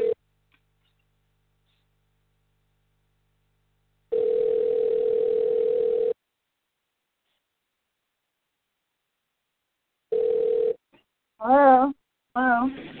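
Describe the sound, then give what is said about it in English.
An outgoing telephone call rings with a steady, single-pitched ringing tone in long bursts of about two seconds, separated by silence. The last burst is cut short, and a voice then speaks. “I'm calling you.”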